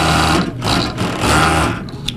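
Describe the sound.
Sewing machine, run by a veteran seamstress, stitching fabric: loud, dense mechanical buzzing in a few sustained bursts separated by brief pauses, ending with a short clack.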